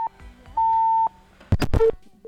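Electronic beeps as a phone call is cut off: a short beep, then a longer steady beep, followed by several crackling bursts of noise.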